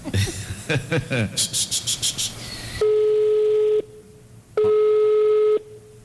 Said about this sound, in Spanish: Vamos a llamar.